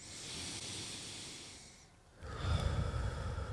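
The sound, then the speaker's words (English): Deep breathing, drawn in through the nose and let out through the mouth: a long, airy hiss of inhaling, a brief lull, then a louder, rougher breathy exhale. No one talks. “Let's take 3 deep breaths together. In through the nose, out through the mouth.”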